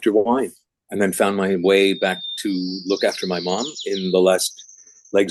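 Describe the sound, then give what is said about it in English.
Birds sing in the background on Galiano Island, British Columbia, with thin, high chirps and whistles, including some longer whistled notes, running faintly beneath a person talking steadily. “I can hear the birds in the background.”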